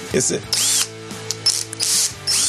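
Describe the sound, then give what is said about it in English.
A cordless drill tightens a microphone stand in several short, whirring bursts, its motor whine bending in pitch as each burst spins up and winds down, with ratcheting clicks between them. “is that electric screwdriver? Drill. Wireless drill. You need to tighten up your microphone stand with a cordless drill.”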